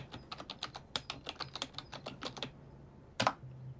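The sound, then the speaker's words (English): Rapid keyboard typing as a message is written and posted: many crisp keystrokes in a quick, uneven run, then a short pause and one louder clack. “Ed types out and posts a message”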